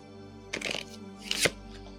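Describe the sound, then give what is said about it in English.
A tarot card is pulled from the deck and turned over, giving two short, faint bursts of papery rustling and snapping against a quiet background. “if I pull a card in reverse, I'm going to turn that over like I always do.”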